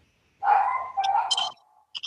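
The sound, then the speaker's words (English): Dogs barking and whining in a short, loud outburst: a long, harmonic, bark-like cry is followed by a brief, high yip after a short pause. “apologize for my dogs, can't control them.”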